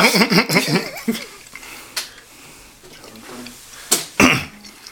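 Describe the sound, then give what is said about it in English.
Congested coughing and throat clearing: a few sharp, harsh bursts with rough voiced clearing sounds at the start, separated by quieter gaps. “Yeah, I hear all that. All that nasal congestion. It's the mucus that binds us all.”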